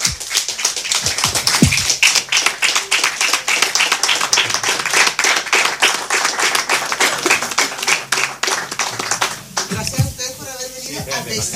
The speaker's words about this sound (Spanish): yo creo que un aplauso muy caluroso para